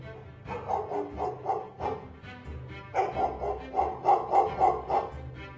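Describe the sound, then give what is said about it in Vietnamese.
A dog barks in quick, repeated bursts, many yappy barks in two close runs with a brief gap between them. The barking stays fairly loud throughout. “Ngay sau đó là tiếng chó sủa lên nhấm nhặng.”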